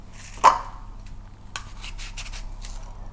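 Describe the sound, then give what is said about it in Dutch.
A knife cuts an apple in a kitchen: one sharp clink of the blade, then a few faint, crisp crunches, with no talk. “Ik snij een appel.”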